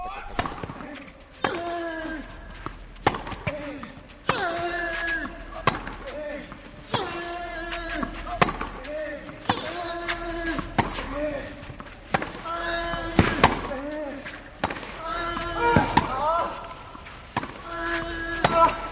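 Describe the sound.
A tennis ball bounces and is struck during a Djokovic versus Nadal match, with many crisp, repeated thuds and sharp hits in a steady rhythm under continuous talk.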